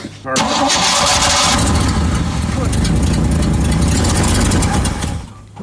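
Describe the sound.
A cold engine on an old vehicle cranks and catches, then runs loud and steady for about five seconds before cutting off just before the end.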